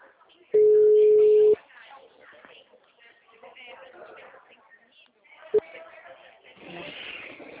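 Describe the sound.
Telephone ringback tone while calling someone: a single steady, mid-pitched tone lasting about a second, followed by people talking, with a brief tonal blip later.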